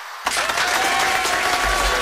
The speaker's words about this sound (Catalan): Un aplaudiment per tots els que van entrar a l'estudi.